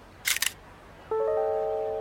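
A camera shutter fires at an amusement park with a quick double click-clack, then a steady harmonic electronic tone begins and holds to the end, fairly loud with no voices.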